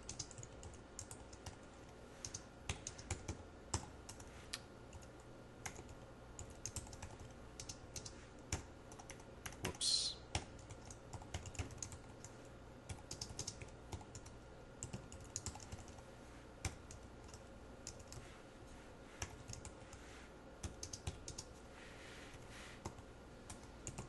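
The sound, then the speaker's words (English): Typing on a computer keyboard: many quiet keystrokes tapping in an irregular rhythm, with a few louder clicks near the middle and no voices. “Let me type that out.”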